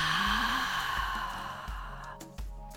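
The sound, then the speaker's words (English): A long exhale releasing the breath during a breathwork session, a steady breathy hiss that slowly fades over nearly three seconds, with low tonal sounds underneath. “And releasing the breath.”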